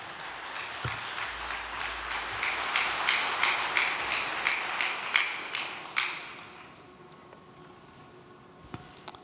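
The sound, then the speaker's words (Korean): Audience applause greets a speaker being welcomed to the podium at a devotional gathering. Dense clapping builds and holds for about six seconds, then fades into near quiet with a few stray claps. “이기성 천신 원장님을 단상에 모실 때 큰 박수로 맞이해 주시기 바랍니다.”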